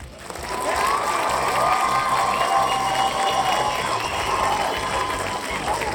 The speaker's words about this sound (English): before we get into our new addition to the show, I'd like to welcome the, as always, the studio audience.